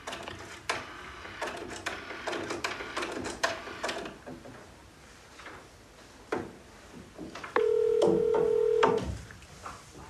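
A telephone number is dialed: a series of uneven clicks and taps, then a steady electronic tone sounds for over a second near the end.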